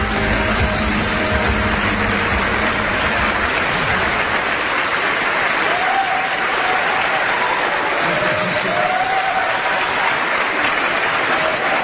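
Loud, dense audience applause as an actor is introduced at a public event. Steady clapping holds at an even level throughout, with no voices standing out.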